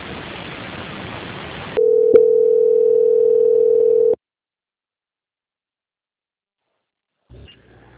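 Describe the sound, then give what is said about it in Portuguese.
Telephone line tone while a call is being transferred: hiss gives way to a single steady, mid-pitched tone held for about two seconds, then the line falls silent. “agora vou pedir que a senhora aguarde na linha para transferir o contato para a auditoria”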